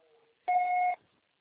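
A voicemail system sounds its beep after a recorded telephone message: one clear, steady electronic tone lasting about half a second, heard alone in near silence.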